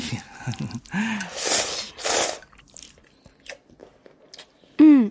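Slurping and chewing of instant noodles cooked with egg: two loud, noisy slurps in the middle, then faint scattered chewing clicks, with brief vocal sounds at the start and end.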